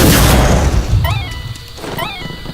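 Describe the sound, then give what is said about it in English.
A bomb explodes in a video game battle with a loud, booming crash at the start that decays, followed by two quick bursts of bright, rising electronic chirps. “Feet's bullet bomb just exploded.”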